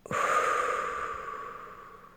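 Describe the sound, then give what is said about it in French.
A deep, slow exhale follows a full belly-and-chest inhale during a guided relaxation exercise. It is a single soft, breathy rush of air that starts abruptly, holds steady, then gradually fades over about two seconds. “Prenez une profonde inspiration en gonflant le ventre et la poitrine. Soufflez”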